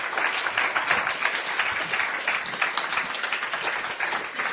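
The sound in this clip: An audience applauds a guest with steady, sustained clapping that fills the whole stretch at an even, fairly loud level.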